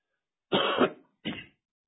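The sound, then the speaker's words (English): Two coughs from a preacher during a sermon: a longer, harsh first cough, then a short pause and a shorter second one. Both are loud and stand alone with no talk over them. “Once again, excuse me for that cough.”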